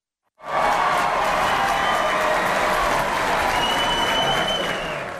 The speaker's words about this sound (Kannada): ಶಿಳ್ಳೆ ಚಪ್ಪಾಳೆ ಎಲ್ಲ ಸಿಕ್ಕಿದ್ವಲ್ಲ.